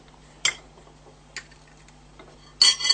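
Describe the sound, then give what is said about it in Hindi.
A spoon lightly breaking the tops of crisp homemade shells: three dry crackling bursts, a sharp first crack, a fainter second one, then a longer, louder crunch at the end, with no voices. “आप एक spoon लेंगे, इसे हल्का सा पहले तोड़ेंगे ऊपर से, आप देख लें कितने क्रिस्प बने।”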